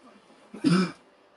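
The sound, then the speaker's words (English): A single rough cough, close to a throat clearing, bursts out once during a video game session and stands alone between quiet stretches, short and moderately loud. “I want you not to be coughing right now”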